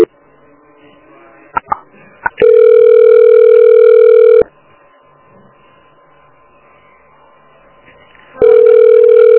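Telephone line tones sound while a call is transferred: a few short clicks, then a steady, loud buzzing tone for about two seconds, a quiet gap, and the same tone returning at the end.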